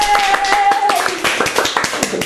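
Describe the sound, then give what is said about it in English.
Hand clapping by a man, a rapid series of sharp claps under overlapping talk. “I don't know why he's clapping either.”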